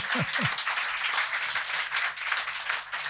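Audience applause at a live blues café show: a dense, continuous patter of many hands that holds at an even, fairly loud level for the whole stretch.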